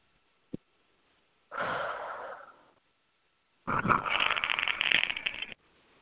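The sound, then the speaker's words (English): A deep breath: a small click, then a soft airy inhale of about a second that fades out. After a pause comes a longer, louder, rough exhale lasting about two seconds. “Take a deep breath in. I release all positive and negative emotional blocks with I confuse myself.”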